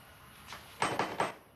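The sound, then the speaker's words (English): Knocking on the front door of a columned villa: three firm, evenly spaced raps, preceded by a softer tap. “He knocks on the door.”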